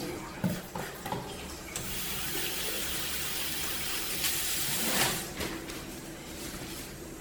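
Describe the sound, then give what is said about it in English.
Hands are washed under running tap water at a clinic, a steady rushing stream that splashes and shifts as the hands move through it, loud and continuous throughout. “And wash my hands.”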